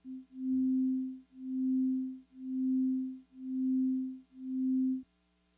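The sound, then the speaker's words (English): A steady low sine tone under amplitude modulation swells and fades five times in an even rhythm, each swell growing loud and then sinking almost to nothing, before cutting to near silence. “The next one is just modulating the amplitude, so the volume gets louder and quieter, which you can hear pretty audibly.”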